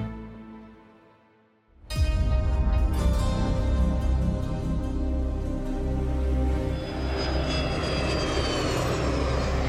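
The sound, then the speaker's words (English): Private jet engine roaring on the runway of a small airport in the Swiss Alps; a sudden loud onset after near-quiet, then a sustained, powerful roar with a high whine. “This is the sound of the private jet runway at tiny Sion Airport, high in the Swiss Alps.”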